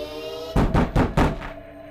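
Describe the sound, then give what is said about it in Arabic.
Knocking on a cabin door echoes through the cabin: four heavy, booming knocks in quick succession, ringing out over a steady tonal hum. “صدى صوت الخبط اتردد في الكابينة كلها كأنه جاي من كل اتجاه حتى من السقف.”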